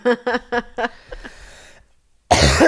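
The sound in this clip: Four sharp, harsh coughs in quick succession from someone with a sore throat, followed by a fading raspy tail and a short silence.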